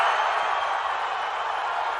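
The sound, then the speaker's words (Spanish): Brazilian fans roar in cheering at news of Neymar's call-up to the World Cup squad: a smooth, sustained wash of many voices, loud and unbroken, with no distinct claps or words. “Ancelotti le ha convocado y la reacción de la torcida brasileña al enterarse lo dice todo.”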